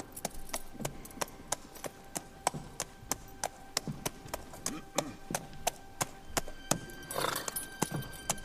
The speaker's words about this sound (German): Einen einzelnen Reiter, der ein Pferd mit sich führt. Er kommt direkt auf die Farm zu.